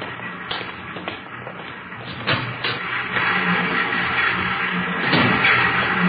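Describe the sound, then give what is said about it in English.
Three new Ludlow typecasting machines run in a religious publishing print shop, giving off irregular mechanical clicks and clatter over a steady churning hum that grows slightly louder later on. “On your left there, those are three of our new Ludlow machines. Excellent mechanisms, needless to say.”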